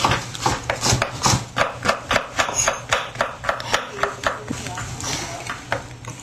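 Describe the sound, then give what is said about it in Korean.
Knife julienning carrots and other vegetables into thin strips of equal size, giving many quick, evenly spaced sharp taps in a steady rhythm throughout. “같은 크기로 당근도 채로 씁니다. 모든 재료를 같은 크기로 깔끔하게 채를 썰어 봅니다.”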